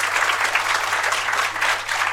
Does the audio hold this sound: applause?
yes